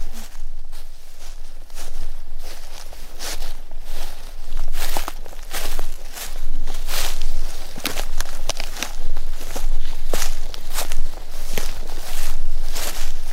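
Footsteps tread through a forest, a long run of many crunching steps at an even walking pace, each step a sharp crackle over a steady rustle of undergrowth.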